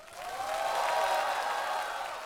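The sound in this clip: Audience applause rises for a singer after he performs a new song on a stage show, a fairly faint, steady wash of clapping that swells and then holds.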